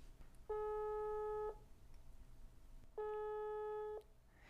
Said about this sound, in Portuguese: Então eu vou ligar agora para um amigo, espero que ele nos atenda.